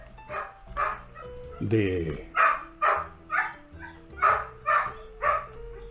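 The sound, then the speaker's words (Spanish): Dogs barking in a repeated series of sharp, mid-pitched barks at an uneven pace, with steady background noise throughout. “Sí, así son mis perros. No me dejan trabajar en paz.”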